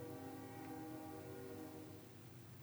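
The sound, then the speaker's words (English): A train passing by, its sustained horn droning steadily as a faint, even tone that eases slightly toward the end. “I'm going to wait till that train goes by.”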